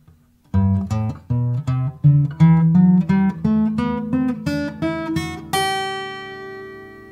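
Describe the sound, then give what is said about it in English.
An acoustic guitar plays a G major scale as a series of clear plucked notes stepping steadily upward in pitch, each note distinct and evenly paced, with the highest final note left ringing and fading. “grab our guitars and have some fun. Here we go with the major scale on G.”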